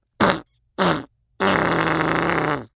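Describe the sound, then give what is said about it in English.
Loud flatulence: two short, rumbling bursts followed by one long, sustained, buzzing fart that holds steady before cutting off. “let out a long cannonball fart. It's really stinky.”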